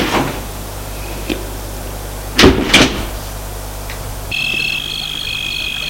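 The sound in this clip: A door left unlocked is pulled open, giving two short, sharp clunks in quick succession against a steady background hiss. A faint, steady high hum follows afterwards.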